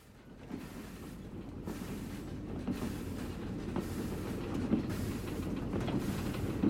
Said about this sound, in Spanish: Escribo en el tren que me lleva a Londres.